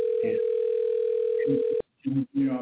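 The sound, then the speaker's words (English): Telephone dial tone while a number is about to be dialed: a steady, unwavering tone holds for nearly two seconds under a man's talking, then cuts off abruptly as the speech continues. “I'm going to dial a number real quick.”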